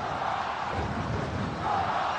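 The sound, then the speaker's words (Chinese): Jiujiang football fans in the stadium raise a steady, continuous crowd roar during their Viking war chant, loud and unbroken throughout. “现场九江队的球迷又是开启了自己的维京战吼，来给主队加油。”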